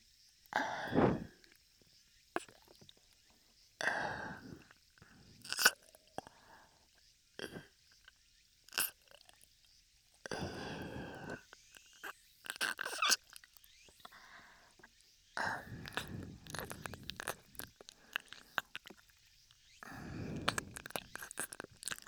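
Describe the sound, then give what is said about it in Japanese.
Slow, wet licking and mouth sounds on an ear, heard as irregular bursts of soft smacking and slurping separated by short pauses, with no talk. “エロくねっとり舐めてあげるね。”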